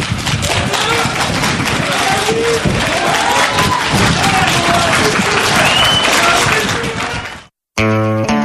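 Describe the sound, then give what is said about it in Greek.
Crowd of local residents applauding outside a courthouse: loud, dense, continuous clapping with crowd voices mixed in, holding steady before cutting off abruptly near the end, followed by a brief different tonal sound. “Υπήρχαν άνθρωποι αρκετοί που χειροκροτούσαν ενώ ήταν οι γονείς του νεκρού παιδιού.”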